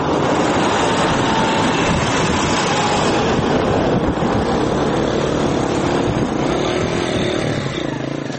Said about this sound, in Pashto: د کرکټ دې لوبې ته چیرمه د ملي اردو ضربتي ټانګونه او د ملکي کسانو رخشې او موټرونه ګډ تګ راتګ کوي.